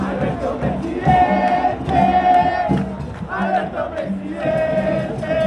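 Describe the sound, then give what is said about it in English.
A large crowd in Buenos Aires chants in rhythmic, sung bursts, celebrating Argentina's newly elected president and vice president Cristina Kirchner. The loud phrases repeat in waves with short dips between them. “That's the sound of a crowd gathering in Buenos Aires last night to celebrate their new president and also their new vice president, Cristina Kirchner, who is returning to power.”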